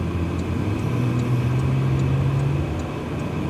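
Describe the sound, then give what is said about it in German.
A sports sedan accelerates hard on an expressway in Jeddah. Its steady, fairly loud engine drone carries a low tonal hum and a broad road rush, with no voices. “Und auf der Schnellstraße, die Jeddah von Nord nach Süd durchschneidet, gibt sie plötzlich richtig Gas.”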